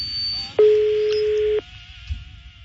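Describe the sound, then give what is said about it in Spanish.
A phone line ringing as an outgoing call connects: one steady, low ring tone lasting about a second, fairly loud, with a faint line hiss before and after. “Un puntito, bájale. Al audífono, bájale. Está sonando, mira, no conteste.”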